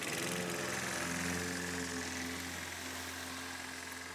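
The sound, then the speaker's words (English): A lawnmower cutting grass gives a steady, continuous motor drone with a low hum and a constant buzzing tone. It holds the same loudness from start to end with no pauses. “No, guys, that's not a generator. I know that's the sound you like to hear, you often hear in our country, but that's not a generator because Eskom is on their game. That's the sound of a lawnmower cutting grass.”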